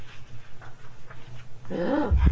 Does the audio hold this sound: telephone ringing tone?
no

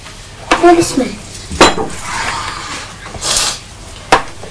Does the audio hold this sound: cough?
no

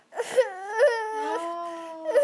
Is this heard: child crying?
yes

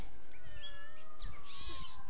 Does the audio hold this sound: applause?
no

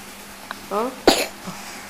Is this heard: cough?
yes

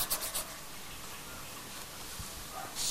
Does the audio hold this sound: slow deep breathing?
no

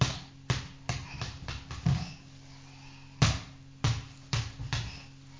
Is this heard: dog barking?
no

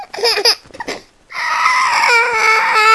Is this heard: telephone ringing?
no

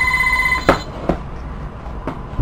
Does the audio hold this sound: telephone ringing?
yes

